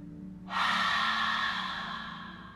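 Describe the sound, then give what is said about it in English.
A long exhale through an open mouth during a yoga breathing practice: a breathy hiss that starts abruptly, holds, then slowly fades over about two seconds. “Press your palm into your heart as you hold your breath in. Open your mouth and let it go.”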